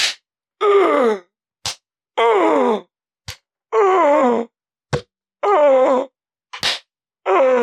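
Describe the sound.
Pained groans rising from below ground in a video game, several long, wavering moans separated by short, sharp hits, loud and with no talk over them.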